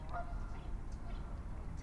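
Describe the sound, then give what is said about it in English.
A flock of Canada geese honking: a few nasal honks overlap above a constant low rumble, fairly faint throughout. “A lot of Canadas. Lots of Canada geese.”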